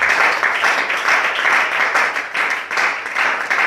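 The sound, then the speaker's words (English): Hand clapping during Christian worship, many hands striking in a dense, continuous patter that stays loud and fairly even, with a slight pulsing rhythm throughout. “clap your hands for Jesus”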